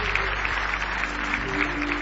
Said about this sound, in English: Give him a big hand clap of praise tonight if you love him with all your heart.